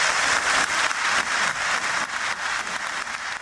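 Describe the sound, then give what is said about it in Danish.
Applause from an audience at a political party meeting, a dense, steady wash of many hands clapping that holds at an even loudness for the whole stretch, with no voices over it. “jeg ved ikke rigtigt, om man som partiformand skal være super glad for klapsalverne her”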